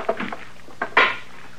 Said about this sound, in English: Well, that stick of wood, of course. You're gonna wreck it banging it on the stove that way. Well, it's too big. It don't fit.